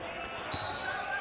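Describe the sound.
A basketball bounces as a player dribbles it with the right hand near midcourt late in the first half of a game. The bounces are muffled under steady arena noise, with one brief louder thump.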